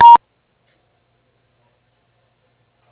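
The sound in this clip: A single short telephone keypad beep from pressing 1 to leave a voicemail. It is brief and clear, heard alone, and followed by silence.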